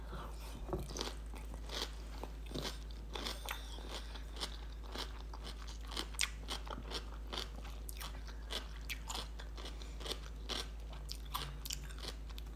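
Crunching and chewing as a person eats homemade cucumber pickles, with many crisp bites and wet mastication sounds in an irregular rhythm over a constant low hum.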